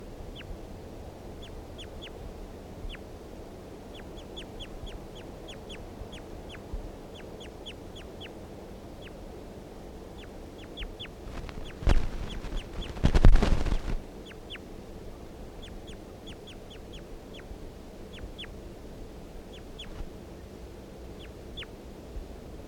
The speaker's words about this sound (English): Start recording bird 336 again.